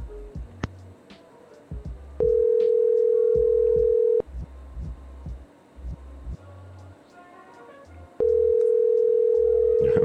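Ringback tone of a telephone call being placed, with two long, steady buzzing rings of about two seconds each separated by a pause, and low, scattered background sounds between them.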